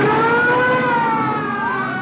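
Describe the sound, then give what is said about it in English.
Police car sirens wail in steady, loud, overlapping tones above a rumbling car engine during a chase. One tone climbs near the end. “Police cars. All right, don't get excited. They can't be after us.”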